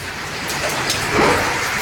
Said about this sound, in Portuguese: Mais chuva. Esse é o som de São Paulo agora.